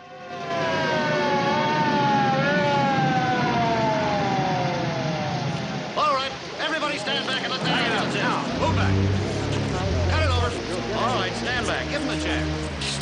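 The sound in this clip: An arriving ambulance siren wails in loud rising and falling sweeps, then cuts off about halfway through. People talk afterward over a low rumble.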